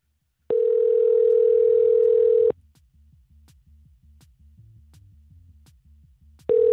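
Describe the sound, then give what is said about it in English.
A telephone line tone follows the dialing of a number. One steady, mid-pitched tone lasts about two seconds, then faint clicking ticks fill a pause before the tone starts again. “I don't even know what I just dialed, you guys. Some kind of number.”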